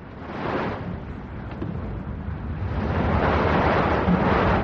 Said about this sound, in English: You can hear the chop. That's the wind brew.